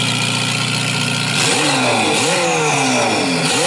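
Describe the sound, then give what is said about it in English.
An F8 Tributo engine revs through either its standard or an aftermarket exhaust. A loud, steady drone gives way to repeated revs that sharply rise and fall in pitch. “So you're going to tell us which one's standard and which one's aftermarket. You can probably tell. F8 Tributo.”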